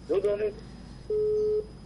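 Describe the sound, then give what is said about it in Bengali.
Telephone disconnect tone on a phone-in call line: a brief burst of voice, then a short pause, then a single steady, pure mid-pitched tone lasting about half a second before it cuts off. “দুঃখিত, সংযোগটি বিচ্ছিন্ন হয়ে গেল, আপনি আবারও চেষ্টা করুন।”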